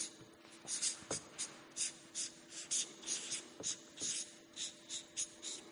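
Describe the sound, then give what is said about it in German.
Faint handwriting: many short scratchy strokes in an uneven rhythm, with small pauses between bursts. “Ich muss wahrscheinlich ein bisschen größer schreiben.”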